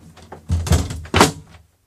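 Knocking on a door: a few dull, heavy thuds in an uneven sequence, the last one strongest, then silence.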